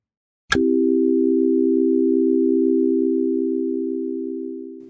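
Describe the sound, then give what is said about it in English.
A single steady electronic tone in the key of C starts abruptly after a brief click, then holds low and unchanging for several seconds before slowly fading toward the end. “You've been listening to Calm Tone number 47, a single tone reverberating for 27 minutes.”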